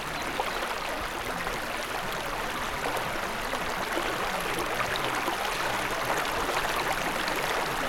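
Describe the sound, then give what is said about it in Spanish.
Water gushing from a tree trunk makes a steady, even rush at low volume that runs unbroken from start to finish with no other sounds. “A stream of water gushed from the tree trunk.”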